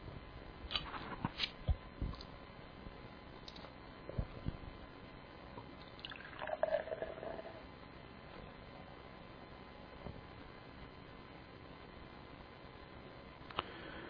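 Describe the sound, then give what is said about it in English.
Opening and pouring a bottle of Pilsner Urquell, a Bohemian Pilsner: faint clicks and handling noises come first, then a short fizzing hiss midway, all over a quiet, steady hum. “tonight I'm judging Pilsner Urquell, which is a Category 2B Bohemian Pilsner. Okay, let me open it up.”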